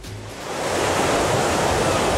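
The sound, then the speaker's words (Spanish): Sea waves washing onto a beach: a broad, rushing surf hiss that swells over the first moments and then holds steady, with no voices. “Qué gusto. Ay, de repente me creía que estaba en la playa Victoria.”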